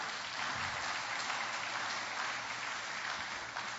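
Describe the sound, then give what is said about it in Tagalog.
An audience in church claps steadily, a dense, even wash of applause that holds throughout without a break. “Pwedeng palakpakan natin ng Panginoon.”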